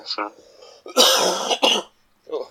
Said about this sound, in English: It just seems like an evening cough at the moment.